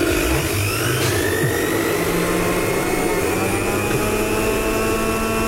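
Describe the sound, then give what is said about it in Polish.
A Thermomix kitchen appliance runs with a loud, steady mechanical whir: a dense roar with a constant hum and a faint high whine, unbroken from start to finish. “Nie, to jest Thermomix.”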